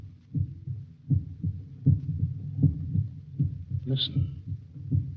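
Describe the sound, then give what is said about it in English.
A human heartbeat thumps in a steady, regular rhythm of low, soft double beats that repeat throughout. A single spoken word briefly sits over the pulse near the end. “That sound is the first and last sound in your memory. It is the pulsating of the human heart.”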